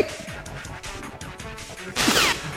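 A Falcon kick attack lands in the Super Smash Bros video game with a sharp, loud crashing impact near the end. Busy, clattering game effects come before it.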